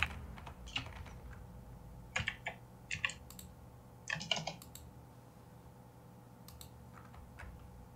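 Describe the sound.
Fingers type out a question on a computer keyboard, a soft patter of key clicks in short uneven clusters with pauses between them, faint and without talk.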